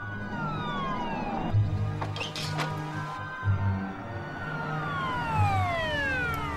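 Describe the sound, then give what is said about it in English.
Sirens from two police cars wail in repeated, overlapping falling-pitch sweeps over a low engine rumble, loud and continuous throughout. “Next, two police cars scream towards the McAfee house.”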